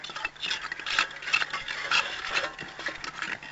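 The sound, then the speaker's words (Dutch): Rough scraping and digging by six people working hard at an excavation: many irregular rasping scrapes overlap in a steady, busy texture with no voices. “Hier vlak voor me zitten 1, 2, 3, 4, 5, 6 mensen heel hard te graven en te schraven.”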